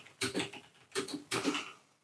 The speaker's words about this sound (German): wir googeln das jetzt nochmal. Ihr hört es jetzt nochmal klicken.